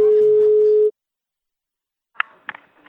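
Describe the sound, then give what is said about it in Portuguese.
Telephone ringing tone on a line for an incoming call: one steady mid-pitched tone lasting under a second, then silence and a few faint clicks. “Ele tá chamando novo.”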